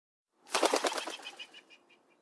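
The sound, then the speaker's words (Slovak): Pigeon flapping its wings as it takes off and flies away: a quick burst of rapid wingbeats that starts sharply, then thins and fades out. “Milý kôň sa v tej chvíli premenil na holuba a letel preč.”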